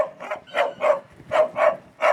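A dog barks at a fox in an artificial den during a hunting-dog earth trial, giving six sharp, mid-pitched barks in two loose groups with short pauses between them.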